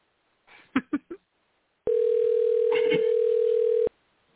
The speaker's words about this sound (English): I hope she answers. Yeah, I was going to say, this person knows you're calling.